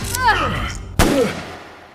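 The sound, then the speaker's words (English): Revolver gunshot during a struggle in a dramatic scene: one sharp, loud crack that cuts through, with a strained voice crying out before it and a shouting voice after it. “the shot hits Dennis in the chest”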